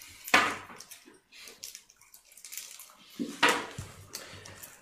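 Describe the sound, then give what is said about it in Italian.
A bucket of warm water splashed into someone's face: two loud, sudden splashes a few seconds apart, with quieter dripping and trickling water between them. “Viene svegliato Arthur da quello che sembrerebbe essere la classica secchiata d'acqua calda in faccia.”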